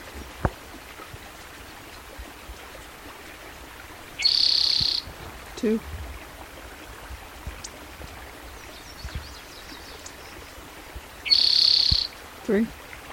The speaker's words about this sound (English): Here's spotted towhee number 2 for June 16th, 2010 along Blacks Creek, Elmore County, Idaho.